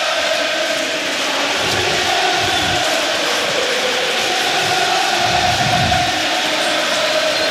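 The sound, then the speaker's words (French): A stadium crowd at the Parc des Princes chants for Kylian Mbappé, a loud, continuous roar of massed voices with a steady sung tone and swells in volume. “Et écoutez, le Parc des Princes, chantez pour Kylian Mbappé.”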